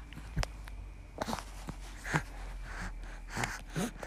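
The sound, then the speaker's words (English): A baby breathes right into a microphone, making faint, short gasps and snuffles. Several soft breaths come at an uneven pace over a quiet background. “There's some sweet baby breath right into the microphone.”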